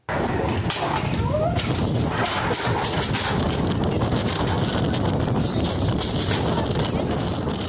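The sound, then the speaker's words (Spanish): Strong gusts from Hurricane Polo lash a department store in La Paz, Baja California Sur, producing a loud, continuous roaring rush with scattered sharp knocks and clatters throughout. “Fuertes ráfagas de viento azotaron una tienda departamental en La Paz, derribando maniquíes, exhibidores y mercancía, mientras clientes y empleados buscaban dónde refugiarse.”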